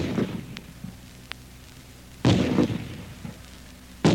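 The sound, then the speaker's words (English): A real military rifle is fired: two loud, thumping reports with a short boomy tail, several seconds apart, preceded by a few faint clicks and low handling noise. “Here's the sound of a real rifle being fired.”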